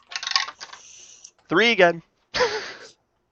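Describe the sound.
Dice clatter and tumble as damage is rolled in a tabletop role-playing game, a short rattling burst followed by people talking.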